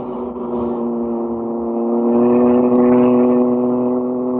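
Racing cars, including a Lotus, speeding around a track, a loud, steady engine drone with a rich buzzing tone that swells slightly in the middle and holds its pitch throughout.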